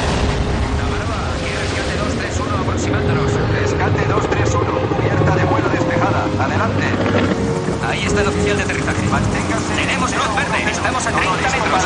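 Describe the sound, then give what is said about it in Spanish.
The roar of a rescue helicopter arriving at a coast guard aircraft carrier, a dense, continuous drone mixed with heavy rumbling and booms, with voices speaking over it. “Mientras, el helicóptero de rescate llega al portaaviones de los guardacostas.”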